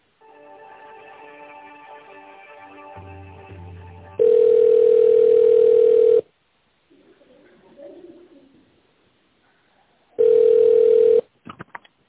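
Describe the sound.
Telephone ringback tone heard while a call is transferred to another office department: a short melodic tonal passage, then two long, steady, loud buzzing tones separated by a quiet gap with faint background noise.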